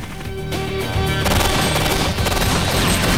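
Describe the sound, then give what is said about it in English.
Rapid gunfire in a shootout, dense overlapping shots that grow louder and more continuous after the first second, over a sustained tonal background. “Sasha shoots at a 49er.”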